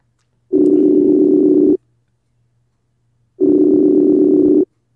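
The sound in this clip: A phone call rings out at the other end: two loud, steady, low electronic ringback tones, each a little over a second long, separated by a stretch of silence, with no one answering or speaking.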